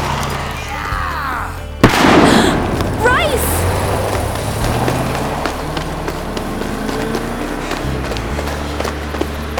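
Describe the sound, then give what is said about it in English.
A cherry bomb firecracker explodes with one loud, sharp bang that cuts through a steady background rumble. “Just a cherry bomb.”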